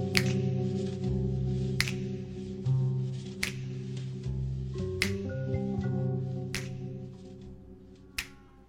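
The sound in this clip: Finger snaps keep time over a steady music intro, each snap a sharp, crisp crack repeating at an even, unhurried pace above the sustained tones.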